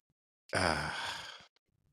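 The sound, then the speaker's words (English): A person yawns once: a voiced, breathy, drawn-out sound lasting about a second with a groaning tone, heard alone between silences. “I keep yawning.”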